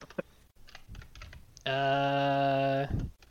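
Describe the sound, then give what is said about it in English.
Soft typing on a computer keyboard: a few faint, scattered key clicks, then a long, steady, buzzing tone that stops abruptly. “No, I don't mean to type Square Everyday Game or Gamer. Maybe I should type Enix in here to find.”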